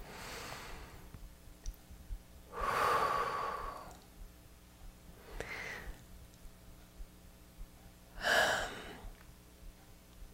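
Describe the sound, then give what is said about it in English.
Soft, deep breathing during a guided relaxation: one long, airy breath like a sigh, then a few shorter, fainter breaths, all quiet against a hushed background. “Let's take a nice deep breath right here, please.”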